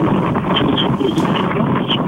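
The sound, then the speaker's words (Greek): Strong wind blows outdoors on Samos, a steady, loud roar that buffets the microphone without letting up for the whole stretch. “Που είσαι, έχει πολύ αέρα. Παιδιά, έχει γενικός αέρα εδώ στην Σάμο και θα προσπαθήσω να προσπαθήσω να προστατευτώ.”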